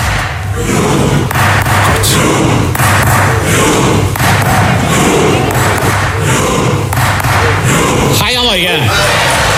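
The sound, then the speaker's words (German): Norwegian fans in a large crowd perform their rowing cheer: loud, rhythmic collective shouts and thuds land about once a second over a dense wash of crowd noise. “Und zwar mit ihrem Ruderjubel. Der hat sogar ins norwegische Parlament geschafft. Da rudert das ganze Parlament und das klingt so.”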